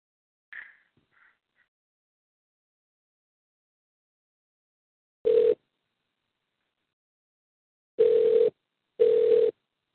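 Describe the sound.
Telephone ringback tone while placing a call to an organization's national headquarters: three steady buzzing bursts follow a soft click. A long pause comes before the second burst, and the last two arrive close together, alone and with no talk.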